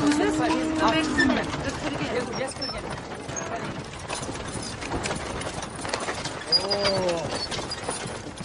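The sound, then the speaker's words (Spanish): Horse hooves clip-clop steadily as a horse-drawn cart rolls along a country road, with villagers travelling with their belongings and livestock in a drama film; voices are heard over the continuous rattling of the cart. “Por la mañana, en campo abierto, Mustafa conduce el carro. En un camino, un grupo de aldeanos viaja con sus pertenencias y ganado.”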